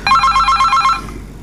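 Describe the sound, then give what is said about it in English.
A telephone rings with an incoming call: a loud, rapid electronic trill of repeated high pulses lasting about a second, then fading out. No voices. “Another call on the line.”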